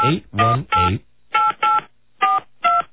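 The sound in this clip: Telephone keypad tones as a number is dialed: four short, steady touch-tone beeps with even gaps, preceded by a few brief voice-like sounds.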